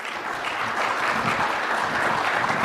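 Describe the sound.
Audience applause at a conference welcoming two speakers to the stage, a dense, even patter of many hands clapping that swells slightly partway through and carries on steadily to the end, with no talk over it.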